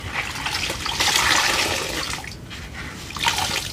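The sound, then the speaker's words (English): A wet sponge is squeezed, releasing a rush of water that swells, eases off, then spurts briefly again, with splashing and trickling. “Yep, that is a sponge”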